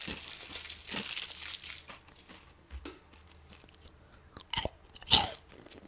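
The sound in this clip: Crinkling plastic from an individually wrapped snack, then crunchy bites and chewing. The rustle is dense at first, with a few sharp crunches later and one loud crunch near the end.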